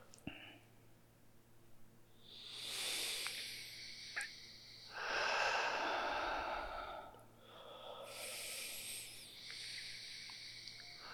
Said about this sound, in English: So now I invite you to take 3 deep breaths through the nose and exhaling through the mouth.